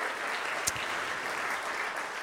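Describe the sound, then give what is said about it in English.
A church audience applauds in an even, continuous wash of clapping that holds steady throughout without pause. “Give them a hand. Don't you appreciate their ministry?”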